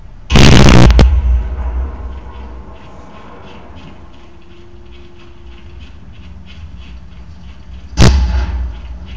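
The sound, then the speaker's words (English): Grenade explosions in a video game: a loud blast with a long burst near the start, a low rumble between, then a second sharp, loud blast near the end. “Just throw another grenade.”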